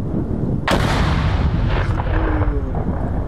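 Mortar shelling of frontline positions near Bakhmut: a sharp, loud blast cracks out early and is followed by a continuous, heavy rumbling roar of gunfire that stays dense to the end.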